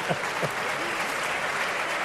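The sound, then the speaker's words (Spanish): Studio audience applause on a live call-in debate show, steady dense clapping that continues evenly throughout without a break. “Debe estar toda tu familia. No sé por qué coño te aplauden”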